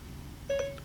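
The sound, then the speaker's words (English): One short, clear phone keypad tone sounds as a smartphone dials a bank. It rises briefly over a faint low hum, with no talk. “So I'm just going to use Siri to make a phone call to my bank.”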